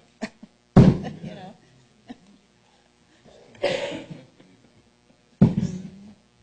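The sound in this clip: Three sharp, breathy coughs from a tickle in the throat, spaced a few seconds apart during a conversation, each a short loud burst that quickly fades, with small clicks and quiet sounds between.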